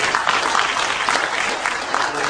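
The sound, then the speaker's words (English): A round of applause from an audience: many hands clapping in a dense, continuous patter with a few sharper claps standing out, steady in loudness from start to finish. “Give those two a big round of applause.”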